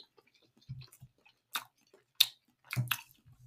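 Chewing a bite of year-old frozen lemon lavender wedding cake: faint, soft, moist mouth sounds broken by a few sharper, crisper bursts of mastication, with no talking.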